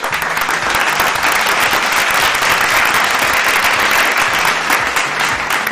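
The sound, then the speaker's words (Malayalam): Canned applause sound effect played for quiz listeners who answered correctly: a loud, dense, unbroken roar of many clapping hands that stays at an even level from start to finish. “ശരി ഉത്തരം പറഞ്ഞ എല്ലാവർക്കും ഒരു അടിപൊളി കയ്യടിയുണ്ട്. ആ കയ്യടിയിലേക്ക് ഞാൻ അങ്ങ് കടക്കുകയാണ്. ദാ വരുന്നു എല്ലാവർക്കുമുള്ള സൂപ്പർ കയ്യടി.”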